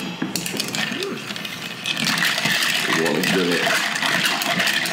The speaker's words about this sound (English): After we've got all that, we're going to throw a little bit of ice in there. Get yourself a stirrer.